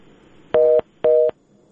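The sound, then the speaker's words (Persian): Two short electronic telephone tones as a call connects to a radio phone-in line, each a steady, bright beep lasting about a quarter second with a brief gap between, over faint background hiss. “بله رادیو آزادی است، بفرمایید. بله، بله تماس شما برقرار شده، لطفاً صحبت کنید.”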